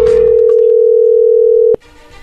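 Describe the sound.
A telephone tone heard while a call is being placed: one steady, loud, unbroken tone that holds for nearly two seconds, then cuts off with a click into faint line noise.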